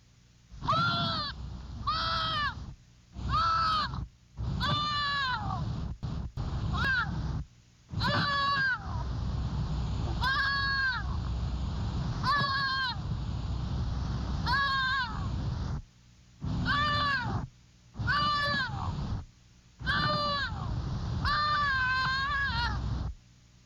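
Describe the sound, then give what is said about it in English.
A young, traumatized fawn cries out in many repeated high, wavering bleats, each a short strained wail with shifting pitch, separated by brief pauses and fairly loud against a quiet background. “I now want you to listen to a young fawn crying when traumatized. This sound will be repeated several times to help you learn the volume and the voice inflection.”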